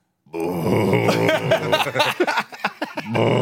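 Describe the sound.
A man's voice imitates someone groaning while holding back vomit in the corner of a camp: a drawn-out, strained moan breaks into choppy gulping grunts and short retching bursts, then swells again, heard alone.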